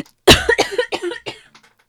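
A coughing fit after something catches in the throat: a rapid series of harsh, loud coughs that begin abruptly and grow weaker, ending in a few fainter hacks.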